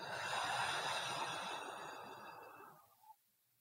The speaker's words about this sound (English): Again, breathe in. Out with sound.